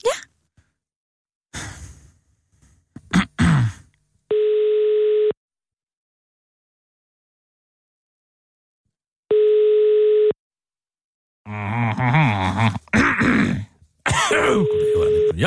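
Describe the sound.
Telephone line tones while a call is placed: two steady, one-second electronic tones separated by a long pause. A sigh and throat clearing come before them, and people talk afterward.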